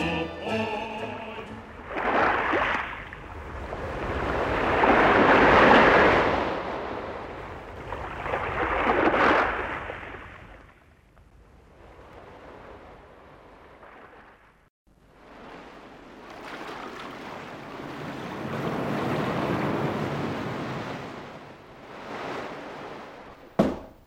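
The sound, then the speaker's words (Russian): Ocean waves at sea in the Atlantic off Spain: a series of deep, rushing surges that swell and fade, with heavy washes early on and a long rolling one later, ending in a sharp splash. “Мадам и месье, мы в Атлантике, у берегов Испании.”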